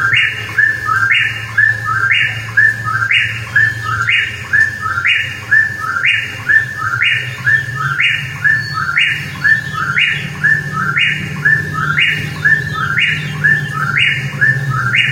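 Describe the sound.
Bird song, the same short two-part chirping phrase repeated many times at a steady, quick rhythm, bright and fairly loud above a constant low hum.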